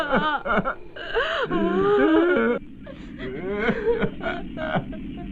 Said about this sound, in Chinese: 他们怎么哭这么厉害？